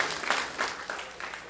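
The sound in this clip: A youth rally audience breaks into warm applause to welcome first-time ralliers, a brief burst of dense clapping.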